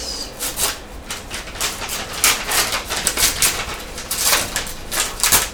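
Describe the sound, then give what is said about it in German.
A tightly glued paper envelope is pried open with many short crinkling, rubbing and ripping bursts in an irregular rhythm, loud and continuous throughout. “Also, wir öffnen jetzt den geheimnisvollen Umschlag.”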